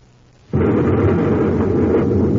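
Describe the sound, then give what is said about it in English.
A space grenade explodes among rocks: a sudden loud, deep roaring blast bursts in after a quiet moment and holds as a steady, heavy rumble to the end, with no voices. “Smoking rockets, what was that? A space grenade.”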